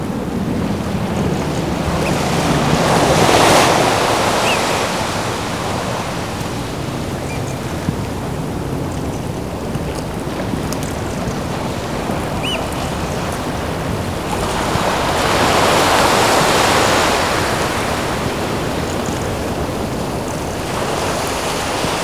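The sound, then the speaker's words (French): Sea waves beside a coastal path: a steady rushing wash of surf with two gentle swells in loudness, one early and one later, and no voices. “La mer.”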